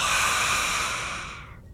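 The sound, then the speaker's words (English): One long exhaled breath is blown out alone. It starts strong and airy, then fades to near silence in under two seconds. “And when he had said this, he breathed on them”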